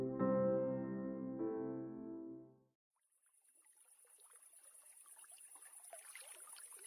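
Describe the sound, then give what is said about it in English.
Trickling water at a pond at night, a soft, crackling flow that rises gradually and runs steadily under a constant high-pitched tone, entering after a fading tonal opening. “You're listening to Night by the Pond, an ambient soundscape for sleep or to play for your next D&D session.”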